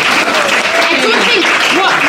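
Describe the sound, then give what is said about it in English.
A round of applause from a group, steady dense clapping with some cheering and voices talking over it throughout. “can we have a round of applause for Nutcraft there?”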